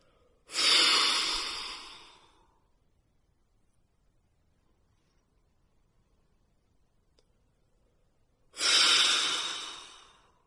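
Two slow, full exhalations from a deep breathing exercise, pushed out through the lips with a hissing 'F' sound. Each lasts about two seconds and tapers off, separated by a long, near-silent pause.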